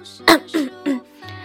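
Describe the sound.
Fake coughing by a person: three short, forced, throaty coughs in an even rhythm, fairly loud, followed by a softer low voiced sound.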